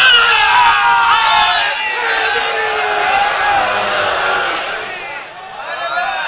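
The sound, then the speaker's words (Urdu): A crowd at a religious gathering shouts the Naara-e-Haidari slogan, loud and sustained. The massed voices swell and ease, dip briefly near the end, then rise again. “کاش تمہیں خدا یہ سعادت دے دیتا کہ تم ایک منٹ کے لیے یہاں پر آ جاتے اور جو کچھ تم نے بغض کا اظہار کیا اس کے مقابلے میں ان چاہنے والوں کی نعرہ حیدری کی آواز کو سن لیتے۔”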